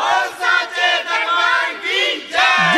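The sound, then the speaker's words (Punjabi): A crowd loudly shouts the Jaikara chant for Sheranwali Mata at a devotional gathering, many voices joined in a few long, sustained, strained cries with brief dips between them. “ਦੋਨੋਂ ਹੱਥ ਉੱਤੇ ਕਰਕੇ ਇੱਕ ਵਾਰੀ ਗੱਜ ਕੇ ਆਖੋ ਜੈਕਾਰਾ ਸ਼ੇਰਾਂ ਵਾਲੀ ਦਾ”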